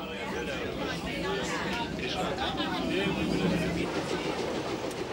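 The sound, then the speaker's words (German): A train runs through a long curving railway tunnel, 1.7 km in length. A dense, steady rumble and rattle continue throughout, with a murmur of passengers' voices mixed into the roar. “4 Minuten dauert die Fahrt durch den Sauschwänzle-Tunnel, den zweiten Namensgeber der Bahn, geringelt eben.”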